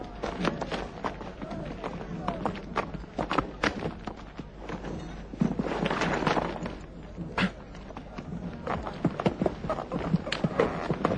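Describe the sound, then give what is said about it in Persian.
Horse hooves clip-clopping in a quick, steady stream of many sharp strikes, with voices heard alongside. “اسبت را سوار شو و به دنبال من بیا. سرباز، اسب مرا بیاور.”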